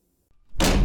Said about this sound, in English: That's the sound of a door slamming in your face.